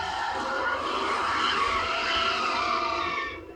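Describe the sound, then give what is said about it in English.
Car spinning out in a movie sequence, its tires squealing in one long, continuous skid that holds steady for several seconds before fading at the end. “I love that spin out. That whole sequence.”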